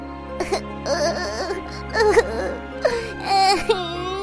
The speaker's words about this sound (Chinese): 哎，哪吒，你怎么哭了？